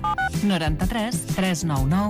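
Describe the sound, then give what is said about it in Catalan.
Touch-tone telephone dialing: two short, clear beeps right at the start, followed by a person speaking. “Truco a Radio Taxi Catalana?”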